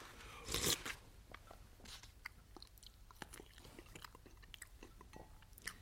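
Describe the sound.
Soft chewing and biting as a person eats a meal, staged in a radio play. Many small irregular crunches and clicks continue throughout, faint and without talk.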